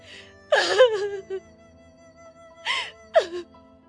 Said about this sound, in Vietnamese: tiếng khóc lạc giọng lại vang lên.